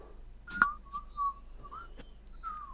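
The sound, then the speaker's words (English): A person whistles while laughing, the faint, wavering notes breaking off and restarting between short breathy bursts. “It's so hard to whistle when you're fucking laughing. This is... Yes, your crazy whistle is quite overpowering.”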